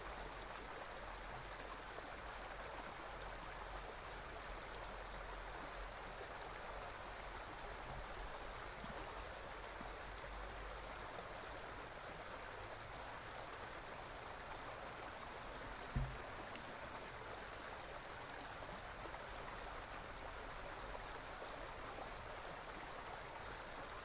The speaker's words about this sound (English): watching, hearing, as the water flows by.